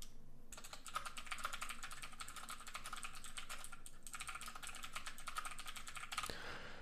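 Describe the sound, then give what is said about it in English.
Fingers type on a computer keyboard in a fast, continuous patter of faint keystrokes, with a brief pause partway through before the typing resumes. “I'll go ahead and type this out.”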